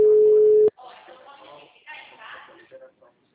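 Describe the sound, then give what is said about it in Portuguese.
A steady phone line tone after a dropped call: one loud, unbroken pitch lasting under a second, cut off abruptly before someone starts talking. “desculpa, caiu a ligação. É, tá meio ruim, né?”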